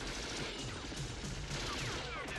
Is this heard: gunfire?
yes